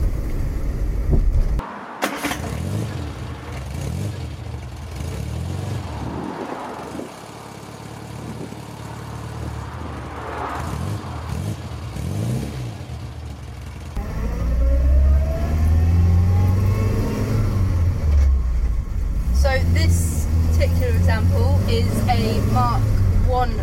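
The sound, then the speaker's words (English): An Austin A40 Farina with a 998 A-series engine drives with a mid-pitched engine hum that surges and revs. Its tone climbs clearly as the car accelerates in the second half, growing louder toward the end. “It's the 998 A-series rather than the 1098. But it's certainly pulling well and quite a pleasure to drive.”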